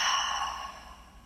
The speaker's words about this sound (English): Taking a big inhale through the nose. Holding the breath at the top here. Exhale through the mouth.